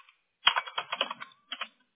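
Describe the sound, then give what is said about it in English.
Typing on a computer keyboard while entering service entries into a system: a quick run of many crisp keystroke clicks, a brief pause, then a short burst of a few more taps, with no talking. “So I'm going to read these off as I type them into the system.”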